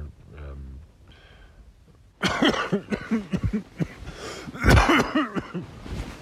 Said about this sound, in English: So there's an example of the cough, and then, you know, that sniffles, and so I wouldn't say I'm far from 100%.